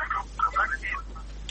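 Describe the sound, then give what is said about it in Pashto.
A radio phone-in call line: a thin, narrowband, telephone-filtered voice in short bursts, with a low steady hum beneath it. “زما سره د موبایل له لارې وغږېږئ یا استاذ اړیکه وصل ده.”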